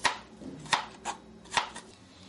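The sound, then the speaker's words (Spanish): A knife finely chops onion into small cubes, making a few sharp, crisp strikes at an uneven pace, each with a quick bright tap and short rustle, and no voices. “La vamos a picar finita. En cubitos chiquitos.”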